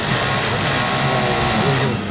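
A foot-pedal sewing machine runs with a continuous, loud mechanical whir and rattle that holds steady for about two seconds, with no pauses and no talking.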